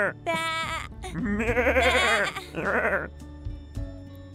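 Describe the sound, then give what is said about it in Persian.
Sheep bleat in a couple of long, quavering, nasal cries that are fairly loud, with short voice-like sounds before and after. “خب گوسفند چه صدایی در میاره؟”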